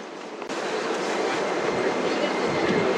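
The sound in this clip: Beijing Subway Line 10 train pulling into Taiyanggong station, a loud rolling rumble and wheel clatter with a sudden jolt early on, then continuing steadily.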